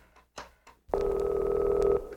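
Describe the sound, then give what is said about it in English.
A telephone ring tone sounds during an outgoing call to a son on a novelty chicken phone: one long, steady, mid-pitched tone lasting about a second, preceded by a few brief soft bumps. “I'm calling your son on the chicken phone.”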